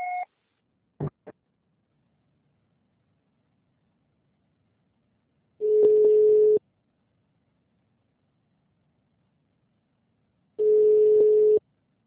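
Telephone answering machine signal tone: two long, steady, mid-pitched beeps about five seconds apart. A short tone and a couple of faint clicks come before them, and no one speaks.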